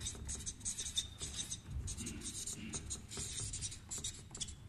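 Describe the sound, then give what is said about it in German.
Handwriting scratches out as many quick, faint, dry strokes in irregular bursts, a pen moving as someone writes down what was just said. “Ich schreibe mal, was ich vorhin sagte.”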